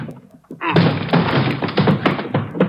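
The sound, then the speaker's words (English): Police force a door open with heavy blows, a rapid series of loud, dull thuds and thumps in quick succession. “Hit the door. Come on.”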